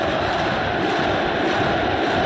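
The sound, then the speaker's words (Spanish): A stadium crowd of Boca Juniors supporters chants as the team takes the field at a football match in Córdoba. A dense, continuous wall of massed voices holds at an even, loud level. “Canta el público.”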